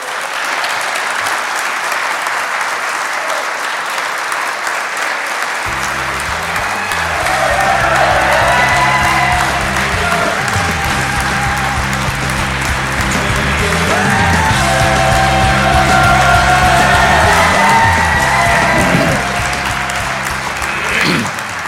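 Loud, sustained applause from a conference audience welcoming the MP for Foyle at an SDLP party conference. Dense, steady clapping swells in the middle and stays strong throughout.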